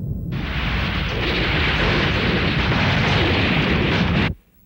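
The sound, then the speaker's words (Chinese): A warship fleet opens an artillery bombardment on battle satellites in orbit: a loud, dense, continuous roar of explosions that holds steady for about four seconds, then stops abruptly. “敌人巴特星的卫星轨道上有战斗卫星，全舰开始炮击。”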